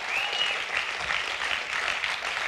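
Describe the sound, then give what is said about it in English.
Audience applause from a church audience during a sermon: a steady, even wash of clapping that holds at a constant level throughout, with no voices standing out. “Yeah, give the Lord a clap on that.”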